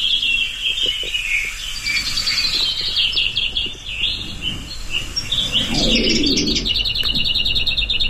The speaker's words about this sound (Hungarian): Akkor most hallgassuk meg, hogyan énekel a kisposzáta.